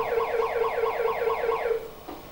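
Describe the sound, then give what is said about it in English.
Electronic horn sound from a child's toy steering wheel: a warbling, siren-like tone that loops in a run of quick repeating sweeps, then cuts off abruptly. “How about using the horn? Beep, beep, beep, beep.”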